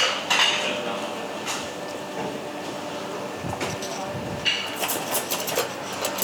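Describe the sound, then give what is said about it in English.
Cutlery and trays are handled and set down, making many light metallic clinks and clatters at irregular moments, with voices talking over the rattle. “Do you want to get yourself a try over there? And then your knife and forks are just there.”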